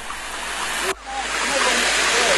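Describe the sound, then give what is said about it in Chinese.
Clear village water from Zhongping is poured into a bamboo tube for cooking, making a steady, rushing hiss that briefly breaks near one second, then continues evenly to the end. “中平村的水干净清澈，倒入竹筒之中就能直接用来烹饪美食。”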